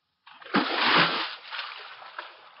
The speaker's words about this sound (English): this kid was cutting that water fast with a powerful stroke